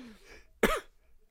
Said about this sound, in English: I'm trying not to cough into the mic.